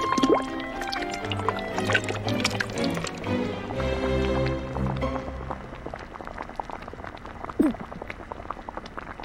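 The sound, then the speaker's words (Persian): Fried onions and seasoned meat tipped into a cooking pot give wet squishing, pouring and splattering sounds, busiest in the first seconds, with a sharp clack near the end. “پیاز داغمونو میریزیم. گوشت مزه‌دار شدمون هم اضافه می‌کنیم.”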